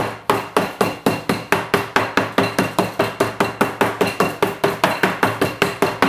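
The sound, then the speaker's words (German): A meat mallet pounds roulade beef flat in a kitchen, with many sharp, evenly spaced thwacks following one another rapidly at a steady beat. “Und wenn ihr das Kloppen hört, das ist kein Techno-Beat, das ist Atmosphäre aus der Gerichteküche.”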